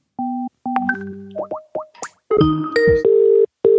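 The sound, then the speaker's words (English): A phone ringtone plays a short electronic melody of clean tonal beeps that step between different pitches, some with quick slides, ending on a couple of steady held tones. “It's an empathetic ringtone.”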